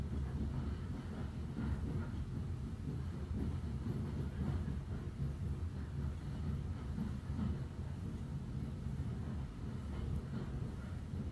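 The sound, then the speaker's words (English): A faint, steady low rumble of an engine-drawn train pulling its carriages across a high bridge over a glen, a continuous droning roll with no distinct breaks. “The engine train reaches the bridge, suspending itself high over the glen”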